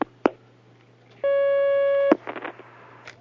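Telephone line tone for an incoming call: one steady, buzzing tone lasting about a second, with sharp clicks before and after it, followed by brief scratchy noise.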